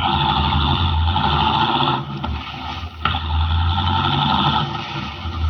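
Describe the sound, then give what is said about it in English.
A car engine drones as the vehicle drives rapidly away in a dramatized scene, a loud steady low hum that dips briefly twice before resuming at full strength. “Leaving De Teufel standing in the road, Henry Miller, the Atom Man, drives rapidly away.”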